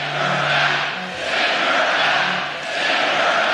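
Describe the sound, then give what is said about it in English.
A crowd at a political rally chanting "Send her back" in unison, a loud mass of voices rising and falling in repeated swells. “On Wednesday, Trump watched as his audience at a rally chanted, "Send her back," about Minnesota Rep. Ilhan Omar, who responded Thursday by calling Trump a fascist.”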